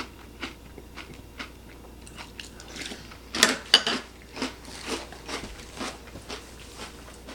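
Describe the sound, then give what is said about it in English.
Crunching of apple-flavoured breakfast cereal being chewed: a series of dry, crisp crunches at an irregular pace, fairly quiet overall, with the loudest bites in the middle of the chewing. “It's a very fruity, kind of floral taste. But I do like all the crunchiness of the cereal so far.”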